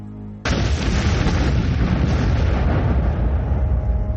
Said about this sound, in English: And then, the bomb goes off.